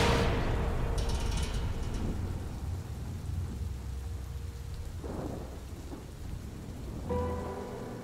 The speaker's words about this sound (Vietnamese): Mấy tiếng sét đùng đoàn vang lên liên tiếp, làm cho ai nấy cũng giật mình.